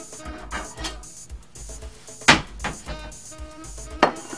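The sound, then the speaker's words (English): A plate is picked up in a kitchen during a chocolate dessert demonstration: light clinks and knocks of crockery, with two sharper clatters standing out amid the scattered handling noises. “Now, I'll just grab a plate.”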